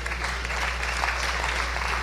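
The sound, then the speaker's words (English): Audience applause: a steady, dense patter of many hands clapping at an even level from start to finish, with a low constant hum underneath. “I don't know if I would applaud that one”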